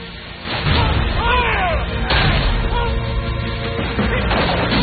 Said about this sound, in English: and the cannon roars.